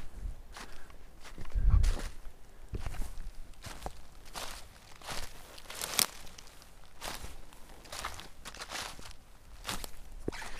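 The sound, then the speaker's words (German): Footsteps crunch along a gently rising forest path strewn with stones, cracking wood and leaves, at night. Many steady steps are heard, with snapping twigs and rustling leaf litter. “Mit aber auf jeden Fall unterschiedlichen Untergründen. Also hier liegen ein paar Steine, Holz, das knackt, Laub, das flutscht.”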